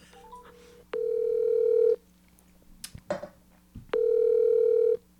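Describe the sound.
Telephone line tones while placing a call: a few short dialing beeps, then two long steady tones about a second each, separated by a gap with scattered clicks and brief noises, no talking.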